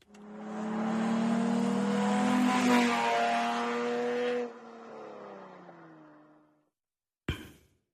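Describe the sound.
A car drives past with a humming engine drone that swells, holds, then drops in pitch and fades away as it passes.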